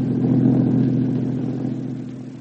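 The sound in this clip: A car engine drones as it drives into the country, giving a steady low-to-mid hum that eases slightly in loudness toward the end, with no talk.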